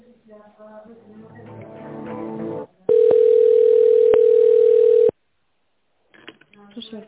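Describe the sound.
A telephone line tone sounds while a call is being transferred: a steady, loud, mid-pitched tone lasting about two seconds, with a couple of faint clicks. A voice talks before it, and after a short silence a voice starts again.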